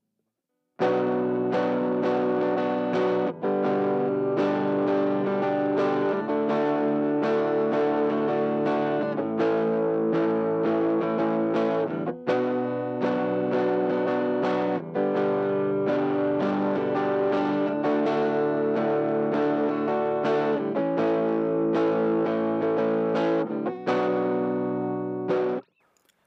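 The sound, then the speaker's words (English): Overdriven electric guitar through a Fender '57 Champ amp model with the volume at 10 gives a moderate breakup. Sustained, thick chords ring loud and steady for about 25 seconds, changing every few seconds, with no talk. “If we take that same 57 champ model, and we turn the volume up to 10, we get a great moderate breakup that has a sound all its own.”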